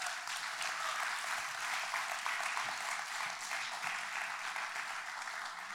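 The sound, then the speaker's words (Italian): An audience applauds at a Sunday gathering with a bright, crackling wash of many hands clapping. It stays steady and sustained for nearly six seconds. “Mattia mi dice, sì, facciamoli un applauso”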